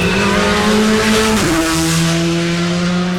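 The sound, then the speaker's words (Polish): A rally car accelerating at full throttle on a straight just after a corner of a rally stage: a loud, sustained engine drone whose pitch dips sharply partway through, then holds steady at a lower pitch. “A potem po zakręcie od razu prosta, czyli gaz do dechy. Od razu prosta i gaz do dechy.”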